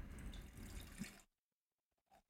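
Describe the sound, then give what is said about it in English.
Lemon-flavoured Meridian Hive seltzer is poured in a steady, fizzy liquid stream for just over a second, then cuts off, followed by faint small sounds; quiet overall. “So I have here a Meridian Hive. It's a seltzer company here in Austin. This is the lemon flavor. So I'm going to pour one out for Rumbleverse,”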